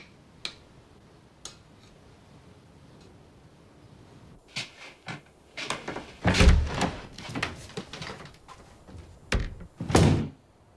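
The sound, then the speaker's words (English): A bedroom door being closed amid a run of clicks, knocks and dull thuds. A few sharp ticks come early, then a busier cluster of louder thumps and handling noises builds toward the end. “He closes the door and stands by the wall.”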